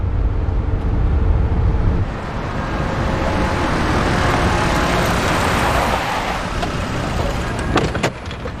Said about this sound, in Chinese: 来了， 捷达呀， 银色捷达。